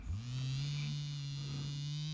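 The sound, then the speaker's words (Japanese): Faint, steady electric buzzing from a small massager, a low droning tone that swells up quickly at the start and then holds an even pitch and level throughout. “ブーンという音が聞こえてきます。さっき私の股間をいじめていたマッサージ機より、相当小さい機械。”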